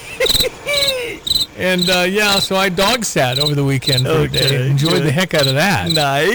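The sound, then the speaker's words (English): Crickets chirping outside, a steady series of rapid, high-pitched pulsed chirps running beneath a person talking. “What's happening? I think I hear the crickets outside.”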